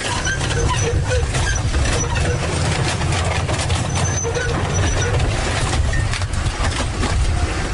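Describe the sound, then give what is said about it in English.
Loud, steady mechanical roar from a gigantic tracked earth mover crushing a long row of seized dirt bikes at a police demolition exhibition. Dense engine rumble and grinding noise run continuously with no clear separate impacts. “that's the sound of a gigantic earth mover, its treads crushing at least 30 or 40, it seemed. It was hard to count them all, but a whole bunch of lined up dirt bikes”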